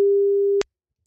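A telephone busy signal: a single steady mid-pitched tone of about half a second that cuts off abruptly, heard alone with no talk.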